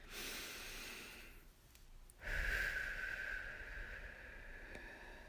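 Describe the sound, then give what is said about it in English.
A slow, deep calming breath drawn in through the nose and released through the mouth: a faint hissing inhale, a short lull, then a longer, breathier exhale, with no talking. “Let's do it right now. First deep breath.”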